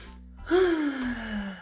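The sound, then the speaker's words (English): A person takes a deep breath in, a single drawn-out breathy intake lasting about a second, heard alone without talk. “But y'all know how we start this podcast. We deep breathe.”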